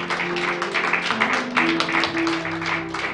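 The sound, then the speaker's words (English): Congregation clapping hands in praise to Jesus at a church service: dense, lively clapping over a held musical tone, steady and fairly loud throughout. “We'll give Jesus a hand clap of praise.”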